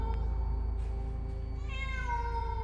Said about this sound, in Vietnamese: lời vừa dứt thì trong nhà vang lên một âm thanh. Ấy là tiếng mèo kêu. Tiếng mèo vang vọng trong bóng tối.